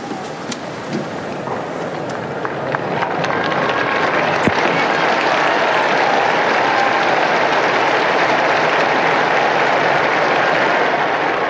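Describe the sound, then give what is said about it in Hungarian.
A large crowd applauds Pope Francis's blessing with a thick, continuous wash of clapping that swells after a couple of seconds and then stays loud and even to the end. “Mai napon is tapssal köszönik meg Ferenc pápa áldását és az ő tanítását”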